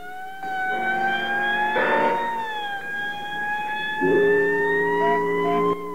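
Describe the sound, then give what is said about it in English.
A 1949-era ambulance siren sounds on a city street lined with buildings, holding a sustained, piercing wail that shifts slowly in pitch. It continues without voices. “An ambulance rounds a corner onto a city street, flanked on both sides by buildings festooned with billboards and signs.”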